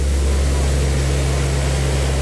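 Steady aircraft engine drone, recorded aboard a plane flying lower over Gaza during an aid drop. The hum is even and continuous, with a low, rich tone and no distinct breaks.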